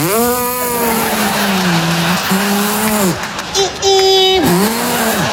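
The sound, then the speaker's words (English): A voice imitates a Toyota Prius hybrid car accelerating onto the freeway: a sustained, humming engine-like drone whose pitch wavers, sagging and swooping up again, with a short break partway through. “We got rid of one of the big giant SUVs and got a Prius. I don't know what you're laughing at. It's a great vehicle. You jump on the freeway and putch, and it goes...”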